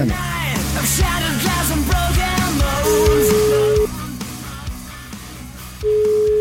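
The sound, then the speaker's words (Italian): An outgoing telephone call being placed: after a loud, busy opening, a steady single-pitched ringing tone sounds twice, one long tone in the middle and another cut off at the end. “Chiamiamo il mio amico Sicignano”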